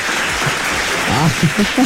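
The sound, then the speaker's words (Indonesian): A group of people clapping on a morning quiz show, a brisk patter of hands with voices and laughter rising over the applause toward the end. “Tepuk lah sekali lagi. Tepuk.”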